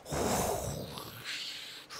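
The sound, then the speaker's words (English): A deep breath blown out slowly, a long, steady, airy rush that eases off, followed by a softer breath, with no talk. “you take deep breaths and just blow it out”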